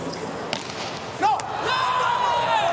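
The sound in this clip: A volleyball serve by a US team middle blocker during a match. A couple of sharp impacts ring out over arena noise, after which the background swells, with a commentator talking.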